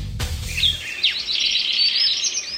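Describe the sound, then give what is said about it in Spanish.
Swallow chirping: rapid, bright, high twittering calls that run almost continuously and fairly loud, with a short low rumble only at the very start. “Golondrina.”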